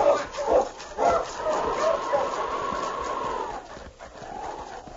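Sled dogs bark, yip and whine as a sergeant's team sets off, an excited continuous chorus with rising and falling whimpering tones and no pauses.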